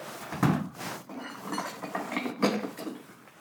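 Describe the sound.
Metal tools being handled, a basin wrench and an adjustable wrench, giving faint clinks, rattles and soft knocks in an uneven series, with no talk.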